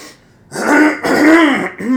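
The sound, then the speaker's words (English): Loud, harsh throat clearing close to the microphone, strong enough to clip it. It comes as a few raspy, voiced bursts in quick succession, with no other talk. “Clearing the throat over here. Yeah, way to clip the mic.”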